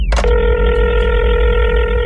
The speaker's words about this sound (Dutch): We bellen met de WK-hotline.